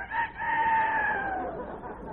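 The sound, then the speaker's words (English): A rooster crows loudly on a farm in the morning, a single drawn-out call with a short opening note and a long, strained tone that drops and fades at the end. “No, that's the rooster. It's morning.”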